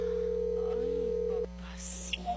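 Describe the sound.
A telephone call rings as one steady, even tone for about a second and a half. It then cuts off, leaving faint background noise.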